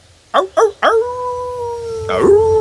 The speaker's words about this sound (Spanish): Espero que no haya lobos.